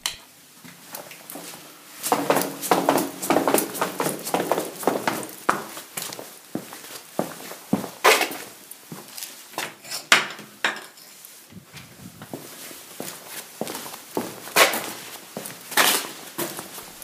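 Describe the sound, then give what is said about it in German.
Gritty footsteps in ordinary sneakers on a sandy cellar floor, grains crunching under each step; many short scuffing steps in an irregular rhythm, moderately loud with no talk. “Also die Sandkörner, die hört man da immer noch. Ich hatte ganz normale Sneaker an.”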